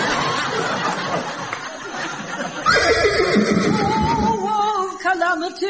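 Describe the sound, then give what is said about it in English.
A horse whinny stands in for a unicorn's call: a loud, high, wavering neigh with a shaky, trembling pitch that follows a stretch of voices at the start. “It is a unicorn, the very last of his breed.”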